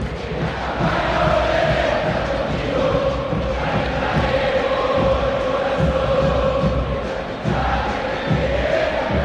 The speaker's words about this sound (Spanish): Habla el público millonario aquí en el Monumental.